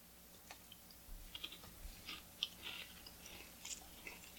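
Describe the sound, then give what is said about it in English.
People munch on Cheez-It crackers, producing faint, irregular crunches and chewing clicks in many small bursts; no one speaks. “all it is like chomping. It's me not saying anything, and you guys just munching because I decided to give you the Cheez-Its back.”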